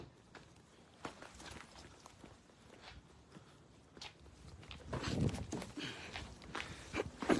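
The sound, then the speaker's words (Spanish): A person runs through a cemetery, and the faint, irregular footfalls and scuffs on the ground grow louder and more frequent toward the end. “Estoy corriendo, familia, espérame.”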